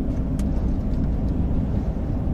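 A car drives along a winding road toward the ocean. Its engine and road noise make a steady, full low rumble throughout, with no talking.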